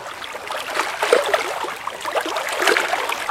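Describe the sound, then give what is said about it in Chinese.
Water sounds of a little fish swimming in a river: continuous soft gurgling and trickling, fairly even in level with small bursts, with nothing else heard. “小朋友，你想不想听一听小鱼在河里游泳的声音呀？”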